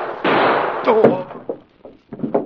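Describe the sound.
A single gunshot, a loud, sudden burst that fades, followed by a voice speaking and a few fainter knocks.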